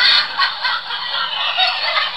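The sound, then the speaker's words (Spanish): Seagulls calling in a dense, unbroken chorus of harsh, overlapping squawks that stay loud and steady throughout, with no voices. “Esta audioteca va sobre gaviotas.”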